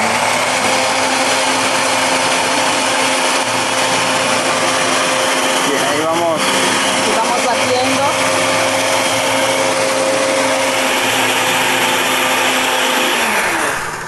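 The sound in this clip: A blender grinds sesame seeds into tahini paste, a loud, steady whirring grind that runs unbroken for nearly the whole clip before cutting off at the very end.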